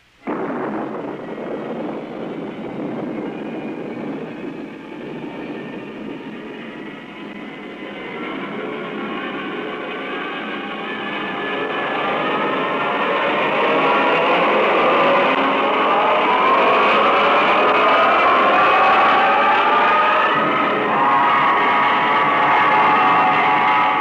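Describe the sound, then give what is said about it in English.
Rocket blastoff roar: broad, rumbling noise starts suddenly, holds steady, then swells louder about halfway through and keeps going without a break to the end. “Countdown for blastoff. X-5, 4, 3, 2, X-1, fire.”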